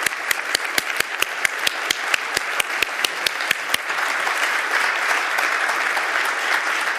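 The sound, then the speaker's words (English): A studio audience gives a standing ovation: loud, dense applause, with sharp, evenly spaced claps standing out over the first half before merging into a continuous wash of clapping. “And we are going to welcome these three with a rousing standing ovation.”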